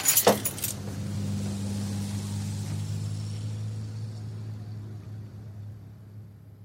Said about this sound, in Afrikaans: Wag net vir my. Ek sluit gou.